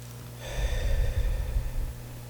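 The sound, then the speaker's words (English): A deep breath drawn in, one soft, airy inhale lasting about a second and a half, alone with no speech. “Let's breathe that in.”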